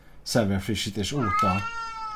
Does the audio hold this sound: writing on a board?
no

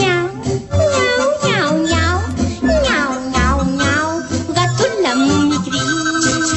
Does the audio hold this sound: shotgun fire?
no

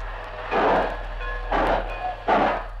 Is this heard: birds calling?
no

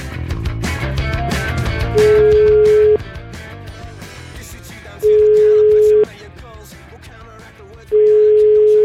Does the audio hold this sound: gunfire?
no

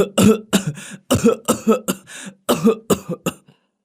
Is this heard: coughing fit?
yes

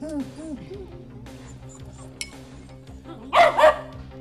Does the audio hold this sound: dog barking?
yes

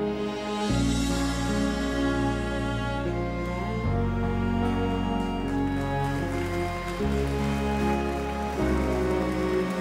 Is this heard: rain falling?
yes

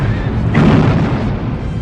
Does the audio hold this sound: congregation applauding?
no

